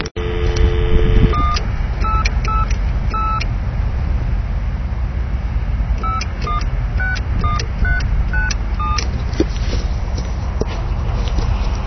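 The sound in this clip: Touch-tone keypad beeps as a toll-free telephone number is dialed, a series of short, bright dual-tone presses in two quick groups over a steady background hiss.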